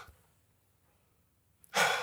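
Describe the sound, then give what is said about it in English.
A church audience draws a deep breath in together: near silence, then a sudden loud, rushing breathy swell at the very end. “You got another second to take a breath in. Everybody go.”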